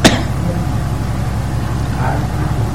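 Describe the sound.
A small generator runs with a steady, low droning hum. The level stays even throughout, apart from a short click at the very start.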